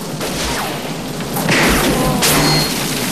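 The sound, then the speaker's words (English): Gunshots fired by a gunman lying in wait in a tunnel beside a conveyor belt, tearing splinters out of woodwork: a couple of sharp, splintering cracks burst out over a steady low rumble. “Scorpio shoots, tearing splinters out of the woodwork.”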